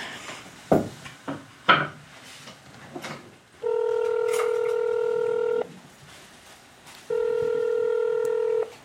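Telephone being dialed for a call to someone in Montreal: two sharp clicks, then two long, steady electronic tones of about two seconds each, separated by a short pause.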